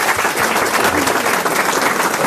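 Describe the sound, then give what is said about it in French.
Warm audience applause at a live quiz show for a young woman in the front row, dense and loud clapping sustained evenly throughout. “On peut l'applaudir, mademoiselle.”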